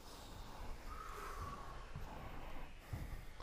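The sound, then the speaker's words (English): A deep, emptying exhale during yoga breathing in warrior two pose. A faint, long, breathy rush of air flows through the nose, steady and soft. “Here we go to rock out this out-breath. Listen carefully. Breathe in. Empty it out completely.”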